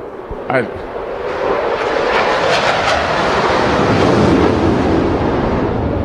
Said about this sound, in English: have you ever not heard that and looked up to see what it was? You provided a perfect background. I'm sure that's an F-18 out there.